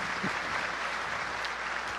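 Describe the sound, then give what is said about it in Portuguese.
An audience in a church sanctuary applauds first-time visitors, a dense, steady wash of clapping that holds at an even level from start to finish with no voices standing out. “Tem alguém que está nos visitando pela primeira vez no dia de hoje, o santuário? Levante a mão para a gente conhecer. Olha quantas pessoas. Vamos aplaudir também estes nossos irmãos.”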